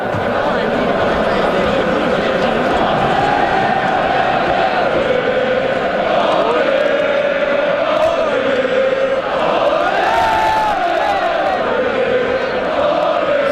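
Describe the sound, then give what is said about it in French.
Hockey fans chant outside the Centre Bell before a match, a loud, continuous mass of crowd voices with sustained, wavering chanted pitches that carries on without pause. “Aucune raison, le match est même pas commencé. On s'échauffe, oui, on fait nos vocalises de partisans. Le volume devient très élevé très vite”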